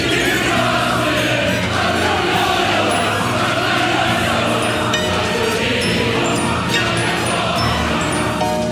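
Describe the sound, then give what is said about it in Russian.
A theatre audience standing and singing Ochi Chernye together with an orchestra, a loud, continuous mass of voices and sustained instrumental tones that fills the whole stretch without a break. “Зрители вслед за Козьмой встали с места и поют стоя.”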